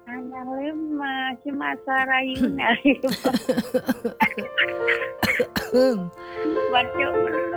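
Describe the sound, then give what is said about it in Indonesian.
Coughing from someone who is still ill, mixed into a conversation. Several short, harsh bursts break up the voices as people talk throughout. “Masih batuk Kapan sembuhnya?”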